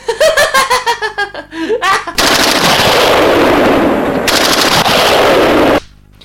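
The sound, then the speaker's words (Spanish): Heavy gunfire of a bombardment roars as a dense, continuous barrage of rapid shots lasting several seconds, preceded by bursts of laughter. “bombardeo.”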